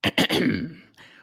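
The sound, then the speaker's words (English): A belch cuts in between two short throaty bursts as a deep, rough, voiced rumble that lasts about half a second and then fades. A faint tail follows. “Like a legitimate belch.”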